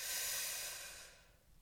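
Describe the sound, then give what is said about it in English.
Breath drawn in through the nose during a guided breathing exercise: one soft, airy inhale that is strongest at the start and fades out after about a second. No talking is heard. “So let's breathe in through the nose.”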